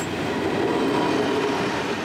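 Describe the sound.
Steady, unbroken rumble of a rail vehicle carrying rails on its wagon as it rolls over a construction track that is passable but not yet finally fastened; a dense, even roar fills the whole clip without distinct wheel clicks.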